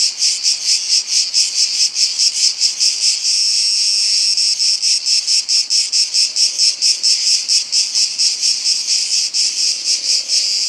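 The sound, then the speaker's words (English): A cicada sings in summer: a loud, steady high-pitched buzz made of rapid, regular pulses that repeat without a break, heard alone. “It's a cicada. All of you probably know about the cicadas in the eastern part of the U.S., the classic soundtrack of summer.”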